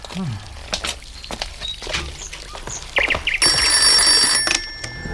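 Telephone ringing: a burst of bright, high bell ringing near the end, after a series of scattered knocks and footstep-like taps.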